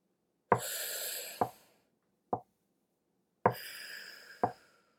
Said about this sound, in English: So this time we're going to inhale for a 2 count, pause, and then exhale for a 2 count with your mouth like this.